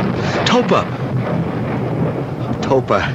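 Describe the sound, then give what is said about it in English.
Thunder rolling during a storm, a loud, continuous low roar with no break, while brief voices cut through near the start and near the end. “Did you have a storm out here?”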